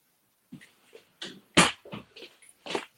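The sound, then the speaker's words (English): A fussy cat cries at a closed door, wanting it opened. It makes a series of short, clipped calls at an irregular pace, with one louder, sharper cry near the middle. “We got a cat, and he gets kind of fussy. He's like, hey, bro, open the door.”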